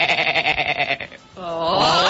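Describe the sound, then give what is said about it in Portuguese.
Sheep bleating: two loud bleats, the first long and strongly tremulous, the second smoother and sustained after a short pause. “Noé ouvia a ovelha fazendo assim. Bé. Bé.”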